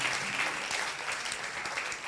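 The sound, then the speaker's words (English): A round of applause from an audience for a woman standing up among them, a fairly quiet but sustained patter of many hands at an even level. “Rise to your feet. A round of applause for her.”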